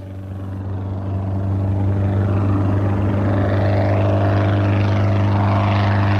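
Steady droning engine of a small propeller plane flying over a beach, a low, even harmonic hum that swells slightly during the first second or so and then holds loud and constant.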